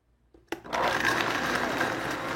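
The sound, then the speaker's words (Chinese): Blender mixing juice with water and a little lemon juice: a short soft rustle, then the motor starts after about half a second into a steady, even whirring drone that continues to the end. “好，那我们现在这个汁已经搅拌好了。”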